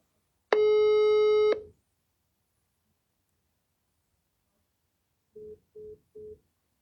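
Declined phone call: a single long, buzzy telephone tone rich in harmonics, then after a silent pause three short, evenly spaced busy-signal beeps at a lower pitch, with no voices.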